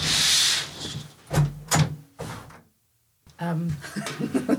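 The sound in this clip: A shop door being tried to check it is locked gives a few short clunks and rattles. A brief silence follows, then voices.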